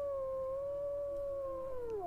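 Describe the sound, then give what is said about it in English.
A single drawn-out wolf howl from wolves in a cave, a clear pitched tone with faint overtones that holds level, then bends downward at the end. “That's worrying though, like a cave full of wolves.”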